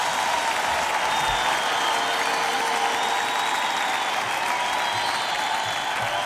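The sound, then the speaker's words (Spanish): Sustained audience applause for an orchestra, a dense and steady wash of clapping that stays loud throughout with no pauses. “Denle un fuerte aplauso también a esta magistral orquesta.”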